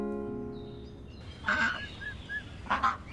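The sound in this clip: Ducks and geese honk on a small family farm, giving a few short nasal honks and calls over steady background noise, with no talk.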